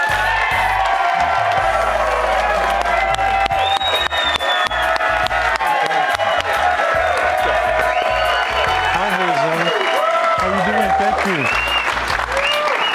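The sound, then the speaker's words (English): A studio audience applauds and cheers loudly and continuously, welcoming the BYU Cougars football head coach, with whoops mixed into the dense clapping. “And how about a hand? Keep it going”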